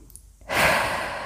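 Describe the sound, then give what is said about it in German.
A deep breath drawn in during a guided meditation on forgiveness: after a brief near-silent moment, a soft, airy rush of inhaled air rises and holds steady to the end, with no talk. “Dann atme tief ein”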